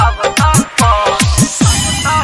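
Mobile phone ringtone: a loud electronic melody of swooping tones that dip and rise, repeated in a steady cycle and played alone without talk.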